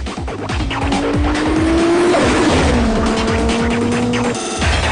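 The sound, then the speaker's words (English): A car's engine roars as it accelerates hard away down a street, the loud, steady tone climbing in pitch and dropping at a gear change before climbing again, with tire noise throughout. “He accelerates away down the street.”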